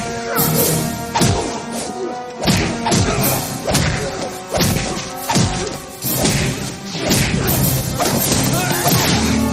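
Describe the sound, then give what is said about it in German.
Fight sound effects from an action TV series: many loud punches, smacks and thuds in a rapid, irregular series, each blow paired with a whooshing swish of movement. “Jede Bewegung wird mit einem Windrauschen begleitet.”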